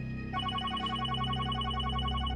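A mobile phone rings softly in the middle of the night: a bright electronic ringtone of many rapid, evenly pulsing tones starts after a brief pause and repeats steadily throughout over a low, constant drone.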